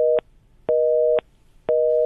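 A telephone busy signal pulses on a phone line, a loud pair of steady tones switching on and off in a regular, even rhythm of about half a second on, half a second off.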